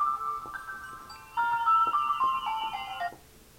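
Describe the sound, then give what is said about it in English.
A cell phone ringtone playing a short electronic melody with no voices over it. A quieter phrase gives way to a louder, brighter one, and then the tune cuts off abruptly. “sorry for the phone call on my cell phone”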